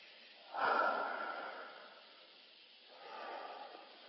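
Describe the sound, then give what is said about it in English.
A deep breath is heard as two soft breathy swells, the first sharper and stronger, the second longer and gentler, quiet and without talk. “Take a deep breath.”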